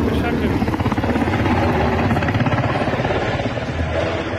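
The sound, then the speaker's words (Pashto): Helicopters flying over Kabul city, a loud, steady rotor drone with rhythmic chopping pulses that continues without a break from start to finish. “د کابل په فضا غنی هلیکوپټر ګرځي”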